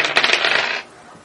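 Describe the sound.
Dice clatter as they are rolled in a tabletop game, a dense burst of rapid rattling clicks lasting under a second that stops abruptly, leaving near silence.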